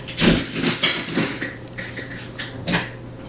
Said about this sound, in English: So please proceed with caution when you're putting your meatballs in the sauce.